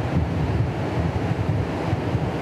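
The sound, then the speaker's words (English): A flowing river and wind make a continuous rushing wash, with gusty buffeting of wind against the microphone. It stays steady and fairly loud throughout, and no one speaks. “And we are here with the river flowing and the wind.”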